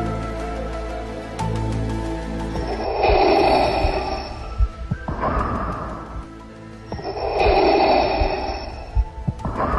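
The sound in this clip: Heavy villain breathing: slow, deep, hissing breaths that rise and fall in a steady rhythm over a couple of long inhale and exhale cycles, loud and rasping with no talk over it.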